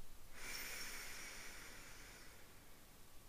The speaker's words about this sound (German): Und dann bring jetzt den rechten Daumen an dein rechtes Nasenloch und atme links tief ein.